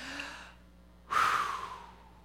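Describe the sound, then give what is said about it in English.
A deep human breath: a soft intake, then after a short pause a louder, longer exhale that sounds like a sigh, heard alone. “Take a deep breath.”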